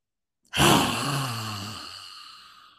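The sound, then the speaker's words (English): A Lion's Breath yoga exhale, tongue stuck out, bursts out as one forceful, breathy rush of air with a brief voiced rasp at the start, then slowly fades away over about two seconds. “My favorite, there are some others, but my favorite one is called Lion's Breath. And it's so much fun, and you look ridiculous doing it.”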